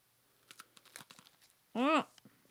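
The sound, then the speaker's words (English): Gluten-free crackers snap, a scatter of small crisp cracks and crunches, followed by a short vocal sound. “I broke the cracker. My cracker broke too.”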